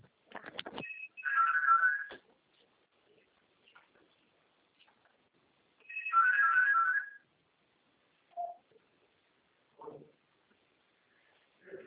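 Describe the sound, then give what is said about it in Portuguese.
A mobile phone ringtone sounds for an incoming call: two bursts of bright, warbling electronic tone about five seconds apart, each lasting around a second, with a few faint short sounds in between. “Só um minutinho, acho que ele está me ligando.”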